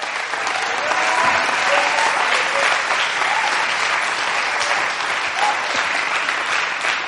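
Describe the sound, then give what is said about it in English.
A church audience applauds on a family Sunday service, sustained, dense clapping that holds steady throughout, with some voices mixed in. “So give the King another great hand.”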